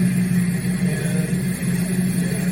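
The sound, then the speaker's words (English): Generators running with a steady droning hum and constant low rumble, an even mechanical tone that does not change throughout. “Right now we're being by the generators, so we probably won't be able to hear much.”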